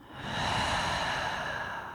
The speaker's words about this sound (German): Nimm ein paar tiefere Atemzüge ein durch die Nase und lass durch den geöffneten Mund los.